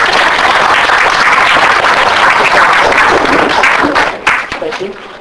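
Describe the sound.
Audience applause welcoming a speaker: dense, steady clapping for about four seconds that then quickly dies away.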